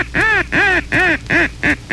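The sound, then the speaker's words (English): A blown duck call sounds the surprise recognition call: five loud, nasal, raspy quacks in an even rhythm, the last two a little shorter, with no other sound between them. “The surprise recognition call is very versatile.”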